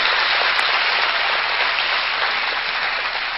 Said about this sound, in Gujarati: તો તાળીઓના ગડગડાટ સાથે આપણે શાબુદ્દીન રાઠોડને વિનંતી કરીએ